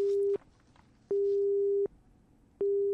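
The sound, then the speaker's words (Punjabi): Telephone busy tone on a phone line cut by a storm: a steady mid-pitched electronic tone that repeats in long, even bursts separated by silent gaps, with three bursts in the span. “ਹਨੇਰੀ ਕਰਕੇ ਸਾਡੀ phone line ਵੀ ਕੱਟ ਗਈ”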